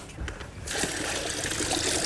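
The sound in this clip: Water being poured, a steady splashing, hissing stream that begins after a brief quieter moment and runs unbroken to the end.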